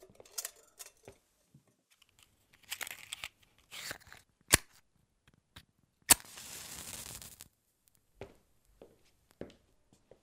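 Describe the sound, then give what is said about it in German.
A match is struck to light candles on a table in a pitch-dark room: scattered faint rustles and small knocks, then a sharp scrape into a brief hissing flare, followed by more quiet handling and no voices. “Wartet, ich zünde die Kerzen auf dem Tisch an.”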